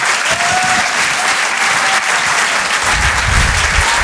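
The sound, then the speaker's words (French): Loud, dense audience applause for two comedians coming on stage, an unbroken wash of many hands clapping that holds at an even level for about four seconds. “Faites du bruit, s'il vous plaît, pour Gilles Alma et Ben.”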